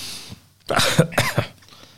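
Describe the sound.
A short run of harsh, throaty coughs, a few bursts in quick succession after a brief quiet start, loud and alone without speech.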